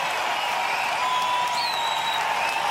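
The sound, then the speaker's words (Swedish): Concert audience applauding an artist on stage, dense continuous clapping with crowd noise and a brief high whistle cutting through partway. “men ska jag då fatta hur de applåderar vilken artist som står på scenen?”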